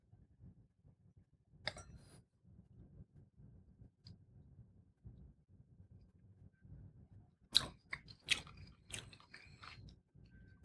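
Soft slurping and wet mouth sounds as someone sips and swishes a very dry wine. A low, quiet murmur is broken by a few sharp clicks, mostly near the end.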